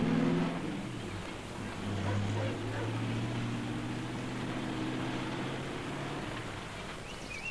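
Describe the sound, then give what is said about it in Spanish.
A car engine drones as the vehicle drives away in a film scene, a low continuous hum that swells slightly early on and then holds steady. “Bonnie sube al coche. Clarence mira preocupado desde la ventana. Se alejan.”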